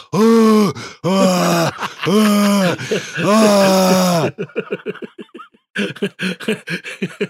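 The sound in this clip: A human voice imitates a manatee's song with several long, wavering harmonic groans, then breaks into a quick run of short, squeaky chirps and squeals.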